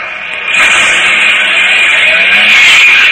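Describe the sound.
A car engine runs as the car drives off, a loud, steady, buzzing drone that swells in about half a second and holds to the end.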